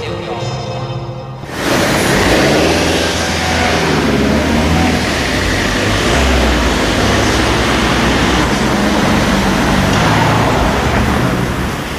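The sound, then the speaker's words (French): Dense road traffic beside the ring road on the suburban side makes a loud, steady, unbroken roar, preceded by a brief voice at the start. “Voilà, à l'oreille, on pourrait être à peu près n'importe où. C'est le bruit de circulation. On est de l'autre côté du périphérique, c'est la banlieue.”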